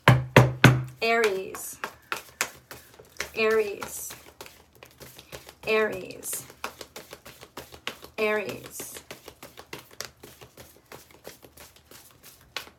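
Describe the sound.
Tarot cards being handled, with a long run of many crisp taps, flicks and rustles under a voice that talks in short bursts.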